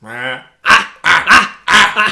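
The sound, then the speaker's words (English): A man imitates a dog's bark, copying a wrestler's signature bark. A drawn-out vocal tone comes first, then a series of short, rough, loud barking shouts that arrive in quick pairs. “I love he's got that like Scott Steiner bark over.”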